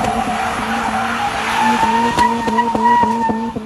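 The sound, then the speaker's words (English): Mazda Miata tires squeal continuously as the car does donuts in an empty parking lot. A high, sustained screech rides over a steady engine drone and grows slightly stronger partway through. “That's the sound of a dude doing donuts in a very empty parking lot in his Miata.”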